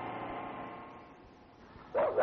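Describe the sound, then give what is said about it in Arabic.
Dogs barking: two short, sharp barks break in right at the end after a stretch of low, steady hum. “هش الكلاب دي بعيد”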